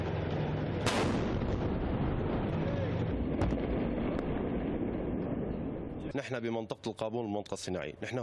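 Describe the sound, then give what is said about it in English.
Heavy gunfire from Syrian army tanks and artillery hitting militant positions in a vast industrial zone: a dense, continuous roar broken by a couple of sharp blasts. A man's voice talks over it near the end. “Here, Syrian army tanks and artillery target the militants' bastions.”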